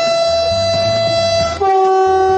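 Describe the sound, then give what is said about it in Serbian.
A train rolls slowly along a worn railway line toward Merdare, its sustained horn-like tones ringing over a low rumble, the tone breaking briefly before carrying on a little lower. “Ponovo ide voz na relaciji do Merdara”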